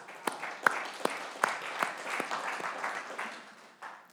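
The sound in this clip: A church audience applauds in scattered, uneven claps, some sharp and distinct, others merging into a soft ongoing patter that fades toward the end.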